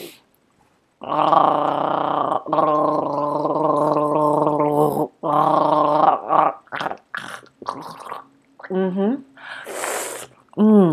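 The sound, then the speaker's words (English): A person gargling makes a long, voiced, bubbling gargle that holds for several seconds before breaking off. Talking and short breathy noises follow. “Now what? I should gargle it? Okay.”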